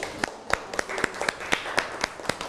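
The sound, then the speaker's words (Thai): Students in a classroom clap for a classmate, a light, evenly paced series of sharp claps ringing out at a steady rhythm, fairly soft, with a few fainter claps in between. “ดีมากขอปรบมือให้เพื่อนหน่อยครับ”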